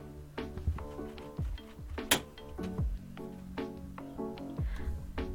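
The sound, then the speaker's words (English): A doorknob jiggled and a door forced open in a shared bedroom: many repeated rattling clicks and knocks, with one sharp bang near the middle. “And that was an example of someone jiggling the doorknob and busting their way in.”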